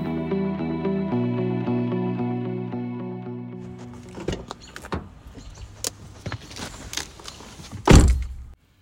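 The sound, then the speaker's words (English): Someone climbing into a car: a steady motorised whine holds for about four seconds, then scattered clicks and knocks follow, ending in one loud heavy thud. “that was the sound of me climbing into my car because it is so incredibly loud in every corner of my house”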